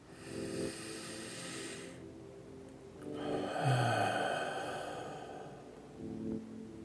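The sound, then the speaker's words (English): A slow, deep breath during a guided meditation: a long, airy inhale, a pause, then a fuller, drawn-out exhale with a soft throaty rasp, all quiet and unhurried with no talking. “Taking another deep breath here.”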